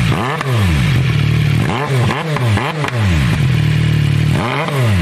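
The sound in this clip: Loud revving from a car with an illegally modified exhaust fitted with a valve, several sharp throttle blips that swoop up and down in pitch over a constant, roaring engine drone.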